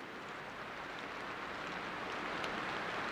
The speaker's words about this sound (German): Hörst du das? Regen.